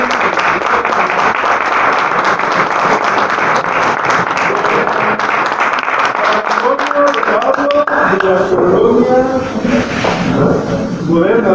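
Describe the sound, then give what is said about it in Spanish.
Applause at a prayer gathering in a shelter in Guadalajara, Jalisco: loud, dense clapping fills most of the stretch, then thins out as a voice begins speaking over the fading claps. “Damos un fuerte aplauso a la”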